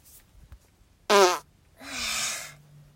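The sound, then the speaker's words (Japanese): Two farts from a person lying face down: the first is short, loud and buzzy with a wobbling pitch, followed after a brief pause by a longer, softer, airier one that trails off, with quiet rustling before them. “よし、今お仕事中、おなら出しますね。”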